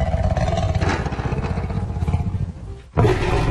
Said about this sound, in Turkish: İşte herkesi korkutan bu kükremenin sahibi, ormanların kralı da tehdit altında.